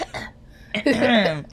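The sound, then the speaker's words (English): A person clears their throat with a few short, rough, raspy bursts, ending in a longer scraping, voiced rasp. “So, let me clear my throat.”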